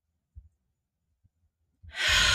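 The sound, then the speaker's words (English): A deep breath is held in near-silence, broken only by a few faint soft sounds, then released as a sudden, loud, breathy exhale through the mouth at the very end. “Let's take a deep breath in. Hold it.”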